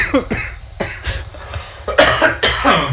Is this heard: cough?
yes